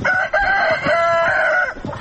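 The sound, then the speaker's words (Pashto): A rooster crows loudly in one long, wavering call with a steady, strained tone, among fifteen hens and roosters scratching in the dirt of a house's yard. “دا کور په انګړ کې 15 چرګې چرګان په خاورو کې مشوکې وهي.”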